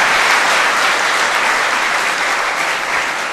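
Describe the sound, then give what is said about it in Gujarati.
Audience applauding during a Gujarati religious discourse by a Hindu swami, a loud, dense burst of clapping that runs throughout and eases slightly toward the end. “આના ઉપર તો તાળીઓ પાડો, ત્યાં તો પાડતા નથી.”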